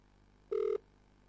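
A single short electronic telephone beep announcing an incoming call: a steady, mid-pitched tone lasting about a quarter second over a faint, quiet background.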